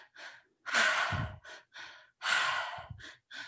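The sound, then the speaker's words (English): One person demonstrates a triactive breath, in through the belly, up into the chest and out through the mouth. It is done in two rounds, each a couple of short breaths and then a long, forceful, airy mouth breath. “the breath pattern that we're gonna do today is called the triactive breath. It's in through the belly, up into the chest, and out through the mouth. So it sounds like this.”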